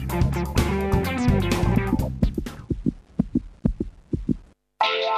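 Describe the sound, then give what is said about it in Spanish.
Heartbeat-like thumps, a regular series of low pulses that emerges from loud music and fades out before another burst of music starts. “vas a escuchar latidos.”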